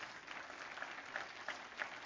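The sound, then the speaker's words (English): Quiet audience applause as a church clap offering, a soft, continuous patter of many hands with a few sharper claps standing out. “Come on, give him a good clap offering one more time, would you?”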